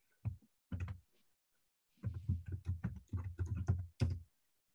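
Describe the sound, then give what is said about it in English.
Typing on a computer keyboard: two short bursts of key clicks, a brief pause, then a denser flurry of quick keystrokes. “Would help if I could type.”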